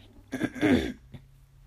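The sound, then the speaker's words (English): A single rasping throat clearing rises and settles over about half a second, then a faint short catch follows against a quiet background. “sorry, something in my throat.”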